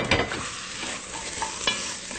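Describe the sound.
Thinly sliced onions are stirred as they caramelize in a frying pan. A steady sizzle runs underneath, and scraping strokes of the utensil stand out as a few louder accents. No one speaks.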